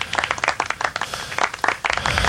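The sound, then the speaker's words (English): Studio audience applause: a brief spatter of polite clapping, dense and steady at moderate loudness with no voices over it. “And the studio audience goes crazy. Polite.”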